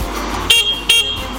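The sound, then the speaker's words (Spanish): Car horn honking: two short, bright toots a moment apart, each rising above a steady low engine rumble. “Estoy afuera, que te que toque bocina, toco.”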